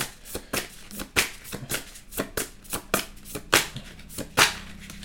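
Cards being shuffled over and over until a few slip out of the deck: many sharp, papery riffling bursts in an uneven rhythm, fairly loud and without talk.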